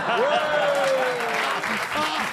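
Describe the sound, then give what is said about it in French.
Applause from a game-show audience, a steady, moderately loud wash of clapping with a voice speaking over it. “Oui, c'est pour avoir des applaudissements du Nord.”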